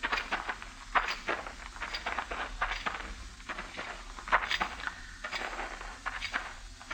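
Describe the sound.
Footsteps of people walking in a radio drama: many steady footfalls at an even walking pace, moderately faint, with no talk.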